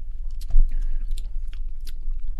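Sorrel being chewed and bitten, a run of many crisp, crunchy clicks and one heavier bite in a steady chewing rhythm.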